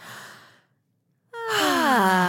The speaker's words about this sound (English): This is your weekly reminder to take a deep breath.